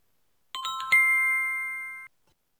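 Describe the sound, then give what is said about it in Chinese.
An ice cream vendor's bell gives a few quick bright strikes, then one clear ringing tone that lingers and slowly fades, with no other sound around it. “远处传来了卖雪糕小贩的铃声，他们都不约而同地想买杯雪糕来解渴。”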